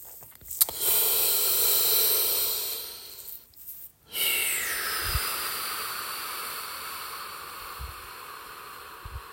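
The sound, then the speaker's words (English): A deep breath, with two long, airy rushes of breath separated by a short pause near the middle. Each rush is a soft, steady hiss heard alone, and there is no talk. “It's good to take a deep breath.”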